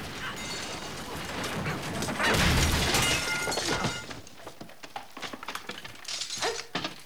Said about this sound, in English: One of the stairs breaks. She trips and the whole staircase collapses, sending her crashing through it.